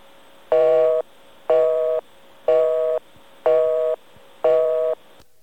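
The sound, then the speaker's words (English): An American telephone busy signal: five evenly spaced buzzing tone bursts, each about as long as the silence between them, loud and steady in level, with no voices. “we're going to dial a busy signal over there, an American busy signal.”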